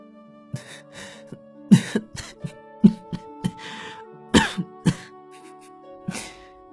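Someone coughs after laughing: many short, irregular coughs and throat-clearing bursts, some sharper and louder than others, with no talking between them.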